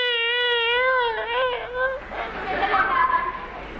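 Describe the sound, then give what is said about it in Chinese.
A voice imitates Peking opera-style crying with a long, wavering, drawn-out wail that quavers in pitch. A murmur of noisy chatter follows. “这就是哭了。”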